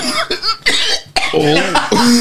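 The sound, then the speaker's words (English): A few rough, throaty coughs, loud and uneven, break up voiced sounds and people talking. “a special cough”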